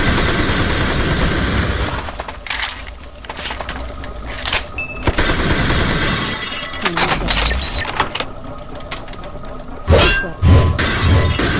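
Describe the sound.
Walls are smashed in a video game, with many loud shattering and crashing bursts and clattering debris over continuous game noise.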